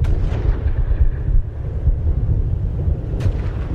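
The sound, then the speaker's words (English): Artillery barrage of big guns firing: a dense, continuous low rumble of overlapping booms, loud and unbroken throughout, with a few sharper cracks standing out. “Hear how intense it is? Big guns. Big guns right up to the very last second.”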